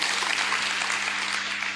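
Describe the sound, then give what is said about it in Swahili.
A church audience claps for themselves during a sermon in dense, steady applause that holds an even level from start to finish. “Jipigieni makofi. Wale wanaopiga hivi, hajaelewa. Ajipigie makofi kama umeelewa.”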